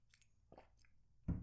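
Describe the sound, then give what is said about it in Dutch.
Someone takes a quick drink, making a few short, soft mouth and liquid sounds with the loudest gulp-like burst near the end; no one talks. “Even drinken, want amai.”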